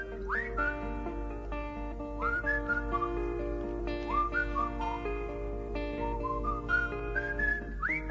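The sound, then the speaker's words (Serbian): Whistling of a melodic tune: a series of clear, mid-pitched notes with rising slides at the start of each phrase, carried over a steady low hum at moderate loudness. “da pustimo malo zviždukanje, ja? Par sekundi samo.”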